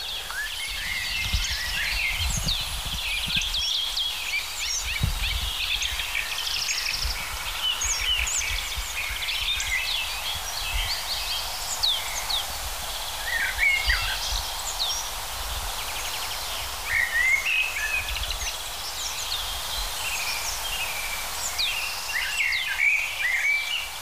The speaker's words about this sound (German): Natürlich eine der Hauptdarstellerinnen, die Amsel,